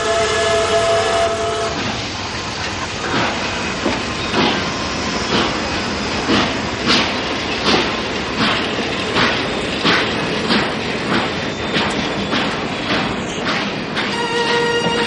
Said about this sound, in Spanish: El tren arranca